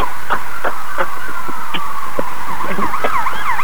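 An electronic police-style siren or buzzer is being tested: a steady, piercing tone that breaks into rapid warbling toward the end, loud and alone.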